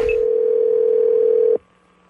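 Telephone dial tone as a prank call is placed: a single steady, unwavering tone holds for about a second and a half, then cuts off abruptly into near silence.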